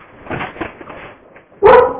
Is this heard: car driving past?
no